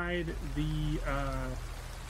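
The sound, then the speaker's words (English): Steady rain plays as background ambience, a soft continuous hiss that stays level under a voice. “I'm just putting on some ambient in the background because it's still raining.”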